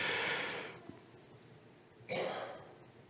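Two long, airy breaths out from a person, each a deep, audible exhalation that fades gradually, with a pause between them.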